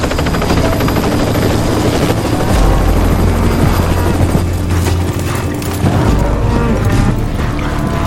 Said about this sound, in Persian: به نظرتون هلیکوپتر اونجا داره چه غلطی میکنه؟